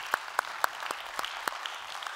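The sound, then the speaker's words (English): Scattered hand claps from a small church gathering welcoming visitors: a few people clap in sparse, uneven, sharp beats that never build into full applause. “So if you would, put your hands together, welcome them into our time of study here today.”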